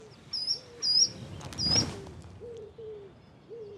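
Low, soft hooting calls from a pair of hoopoes foraging in breeding season, repeated as a slow series of short notes, with brief high chirps from other birds scattered over the first two seconds.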